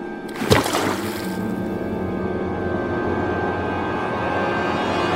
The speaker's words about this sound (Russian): Бьет кулаком по воде.